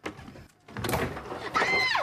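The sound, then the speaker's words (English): A louvered cupboard door opens in a wood-paneled house, giving a brief wooden clatter and slide followed by a thin, squeaky scrape toward the end. “goes to put her jacket in a louvered cupboard.”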